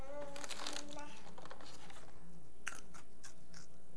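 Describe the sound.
Crunchy chewing of Cheerios cereal, with many quick, dry crackles and bites that come in soft bursts, clustered thickest early and spread thinner toward the end.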